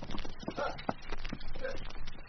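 Horses are led back away from a blasting site, with many uneven hoof clip-clops and shuffling thuds in an irregular walking rhythm at a steady, moderate level.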